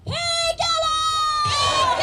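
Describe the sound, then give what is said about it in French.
A crowd of Tibetan emigrants protesting in front of the Capitol shouts the rallying cry for a free Tibet, loud voices chanting together in a sustained call, with a brief break just before the shout resumes. “Ce que vous venez d'entendre, c'est le cri de ralliement pour un Tibet libre.”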